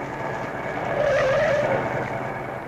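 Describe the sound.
A car takes a left turn at a corner, its tires giving a thin, wavering squeal for about a second over a constant rushing engine and road noise.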